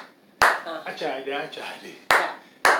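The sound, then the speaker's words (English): Three sharp hand claps while teaching a Ghanaian call-and-response clapping song to children: one clap, then a voice between, then two more claps close together. “this one is called Achade means clap.”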